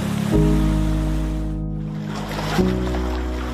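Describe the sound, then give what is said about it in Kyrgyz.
Water of the Aksu River flowing past a main water intake structure, a loud, steady rushing roar with a low droning hum underneath throughout. “Азыр мына оң жак жактагы суу бул Аксуу дарыясы.”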